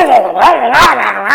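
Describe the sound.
A voice imitates two big mastiffs barking inside a building: about four loud, yelping bursts in quick succession, wavering up and down in pitch.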